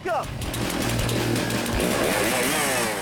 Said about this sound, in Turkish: Sıradaki etkinlik stok testere. Stok testere etkinliğinde yarışmacılar 10 santimetre aşağıya doğru kesip geriye yukarı çıkıyorlar.